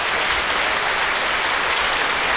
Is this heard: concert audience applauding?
yes